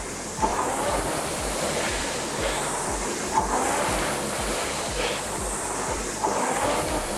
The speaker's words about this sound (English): if you listen to my flywheel, hang on, I'll shut up.